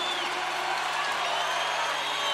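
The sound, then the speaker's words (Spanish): A crowd applauds and cheers in a big ovation for a group. The sound is a steady, fairly faint roar of clapping with thin whoops and whistles on top. “aplauso grande para la chilinga.”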